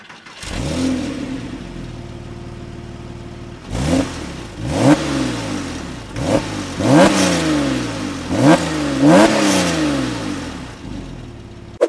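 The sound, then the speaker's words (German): A Porsche 911 997.1 Carrera S flat-six engine starts and settles into a steady idle, then is blipped through a series of sharp, throaty revs that climb and drop back repeatedly, loud and alone. “wir hören jetzt nochmal rein, wie dieser 997.1 Carrera S denn klingt.”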